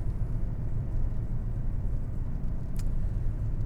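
Steady low engine and road rumble from a car rounding a corner on a street with crosswalk strips. The drone stays even throughout, with one brief high hiss near the end and no voices.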